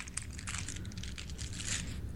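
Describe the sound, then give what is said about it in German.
Crinkly plastic wrapping being torn open on a package of egg liqueur chocolates shaped like small bottles, a faint, continuous rustle of many quick crackling bursts. “Ich reiße es auf und es sind Eierlikör”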